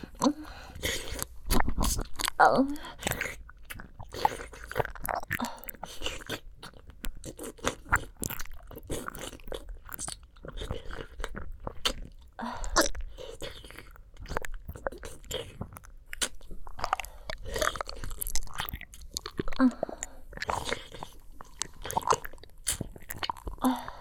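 Someone chewing and eating food, with moist crunching and biting sounds repeating at an irregular pace throughout, moderately soft and steady.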